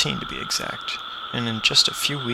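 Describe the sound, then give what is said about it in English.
A dense, steady drone from a swarm of 17-year periodical cicadas sings as a continuous high buzzing chorus that holds evenly throughout while a voice talks over it. “This is the sound of cicadas, millions of insects singing their song, an elaborate symphony of percussion.”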